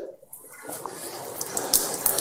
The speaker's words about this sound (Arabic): لكن لو غسلت يدي بهذه الطريقة مثلا